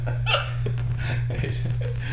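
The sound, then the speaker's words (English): Hiccups from a man who has laughed himself into them: a few short, sharp catches spaced irregularly, heard over a steady low hum. “And then the hiccups are back. He has laughed his hiccups into existence.”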